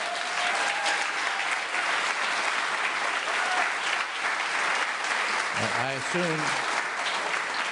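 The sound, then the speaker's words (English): Audience applause, a thick, sustained roar of clapping across the whole clip, with a voice speaking briefly over it near the end. “I assume those of you who are not applauding are on Wall Street.”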